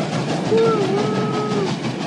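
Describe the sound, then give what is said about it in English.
A train pulling out of a station gives a steady, broad rumble, with a faint sustained whistle-like tone that wavers in the middle. “A lot of scenes like this that go on for 25 seconds. Of a train pulling out of the station.”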